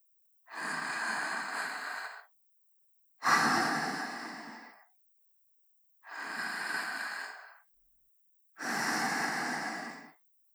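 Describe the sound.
Four long, breathy exhalations of a person's breath, each lasting one to two seconds and separated by short silent pauses, soft and steady with no talking.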